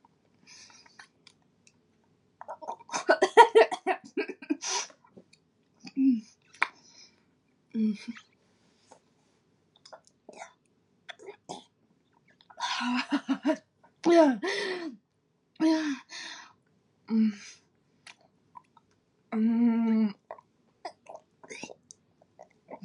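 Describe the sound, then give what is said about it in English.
Wet, throaty gagging sounds from a person with a wet object in the mouth, a series of short broken bursts with breathy gasps between them, fairly soft. “Do you want me to gag on them? I'm gonna take that answer as a yes,”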